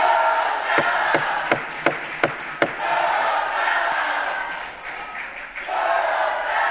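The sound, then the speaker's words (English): A crowd chants and shouts in council chambers as legislation is approved. Loud rhythmic voices are punctuated early on by a run of sharp, evenly spaced knocks or claps, then the chanting swells again. “there was a lot of noise and chanting. Commotion. In council chambers. Take a listen to this as they approve this legislation.”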